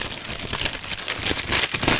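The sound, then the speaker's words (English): A large paper envelope being opened, a dense crackly rustle of crinkling paper that runs steadily for about two seconds without talk. “I've got the envelope here, let's open it up and find out. It's a very big envelope.”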